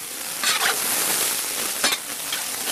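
Onion and squid sizzle as they fry in a pan over a wood fire, a dense, steady crackling hiss broken by a few brief bursts of stirring.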